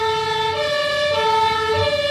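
An ambulance's two-tone siren wails from inside the vehicle as it crosses an intersection on the way out of Berg am Laim. Loud alternating high and low notes switch every half second or so over a low engine rumble.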